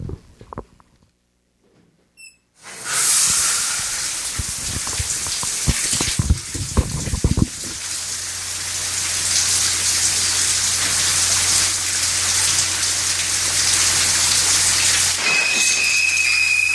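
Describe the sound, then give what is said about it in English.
Shower water sprays steadily in a horror film's shower scene, a loud continuous hiss that starts abruptly and runs to the end, with a low hum underneath in the later part. “The shower scene elevated film.”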